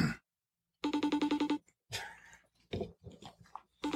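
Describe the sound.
A phone rings during an outgoing call as a quick string of bright, evenly spaced electronic pulses sounds in one short burst, followed by voices talking.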